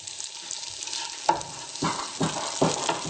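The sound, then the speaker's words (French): Tofu sizzles as it browns and is turned in a frying pan, giving a steady crackling hiss with a few louder bursts. “Je vais surveiller le tofu. Il est en train de dorer, je le retourne.”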